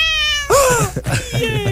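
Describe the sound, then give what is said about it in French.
A cat gives one loud, drawn-out meow that slides down in pitch. It follows a steady held tone, and mixed clutter comes after it. “J'attendais le chat.”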